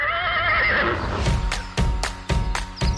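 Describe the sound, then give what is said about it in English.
A horse gives a loud, wavering whinny. Several sharp clip-clop hoofbeats follow in a steady rhythm. “today we're gonna saddle up and learn all about horses. Giddy up!”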